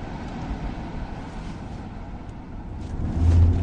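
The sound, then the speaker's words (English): A car moves along dark St. Charles Avenue and turns across the path, its broad rumbling road noise steady at first and then swelling louder near the end. “Yeah, here comes a car. It's turning across my bow.”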